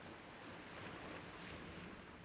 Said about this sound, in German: Nimmst noch einmal das Rauschen des Meeres bewusst wahr.